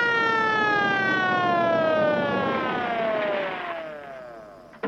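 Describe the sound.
A police car siren wails loudly, its tone sliding steadily downward in pitch and fading toward the end, closing with a brief sharp click.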